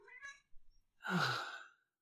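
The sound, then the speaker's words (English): A cat vocalizes with one drawn-out, breathy cry lasting under a second, preceded by a few faint, short harmonic sounds. “No, licking your butt and flicking your tail at me isn't creative, okay? So don't judge me. I know you're a cat, but don't judge me.”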